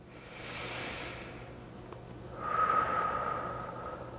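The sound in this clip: Two slow, audible breaths, each a soft drawn-out rush of air, separated by a short pause, the second slightly louder than the first.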